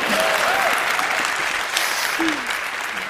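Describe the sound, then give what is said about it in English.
An audience at a live comedy-style talk claps on request, a dense, even patter of hands with a few brief vocal whoops rising above it early and again near the end. “if you guys could just clap your hands a little bit more.”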